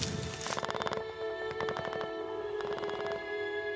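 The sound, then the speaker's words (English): Machine gun fire near St. Quentin as troops advance from trenches: several rapid bursts of rattling shots with short gaps between them, over a steady tonal hum. “Covered by machine gun fire, Cornish boy Cyril Jose”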